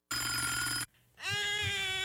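A telephone rings in two bright electronic bursts with a brief dip between them. The ringing is fairly faint and plays alone, with no voices.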